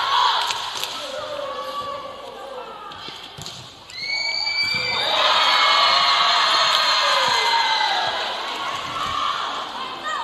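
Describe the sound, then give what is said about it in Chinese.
Volleyball being served and played in a school match, with player number 18 serving. Ball thumps are followed by the crowd breaking into loud cheering and whoops partway through, and a commentator talks over the action. “现在发球的是18号，18号发球。”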